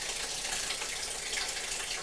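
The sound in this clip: Water splashing and rushing into a bucket as it fills, a steady continuous wash of noise without breaks or voices.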